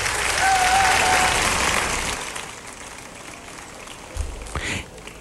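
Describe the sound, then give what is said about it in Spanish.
Applause from an audience after a story narration, a dense, loud burst of clapping that holds for about two seconds, then thins and fades away, with a few faint thumps near the end. “un fuerte aplauso en la narración”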